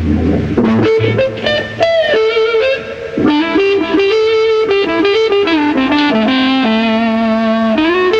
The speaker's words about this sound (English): The woman tone is produced by using either the bass pickup or the lead pickup, but with all the bass off.